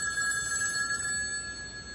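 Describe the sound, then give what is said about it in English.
Telephone rings with a high, thin electronic trill that pulses a few times and then holds steady, fairly faint over a low background hiss, with no voices. “goes to answer the phone.”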